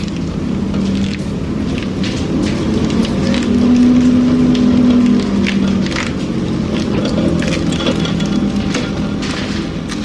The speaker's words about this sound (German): Kurz vor dem Klingelzeichen setzt das Heulen des Windmotors ein. Mit lauten Knattern laufen die Kurleinen auf die Trommeln.